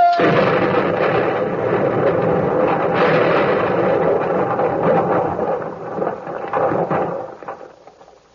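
A torpedo strikes a ship with a heavy explosion that rolls into a sustained roar, with a few sharper bursts along the way, then fades away over the final seconds.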